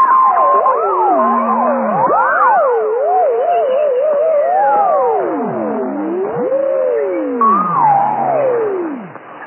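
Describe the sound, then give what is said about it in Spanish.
Warbling, swooping electronic tones of a flying saucer's turbine engines as the spacecraft descends. Several overlapping pitches glide up and down continuously, loud and steady, then cut off abruptly at the end. “El ruido de los motores cesaba y la extraña nave se posaba suavemente sobre la vegetación de la isla.”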